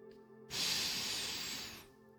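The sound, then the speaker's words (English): A single deep breath drawn in gives a soft, airy inhale lasting over a second, rising quickly and then tapering off. “Will you take a breath with me? Breathe in.”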